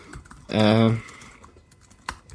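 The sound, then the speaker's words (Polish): Loud typing on a computer keyboard, heard as a few scattered clicks; a short voice sounds over them in the middle. “Jak to dobrze, że tak głośno piszesz, to przynajmniej wiemy, że naprawdę piszesz.”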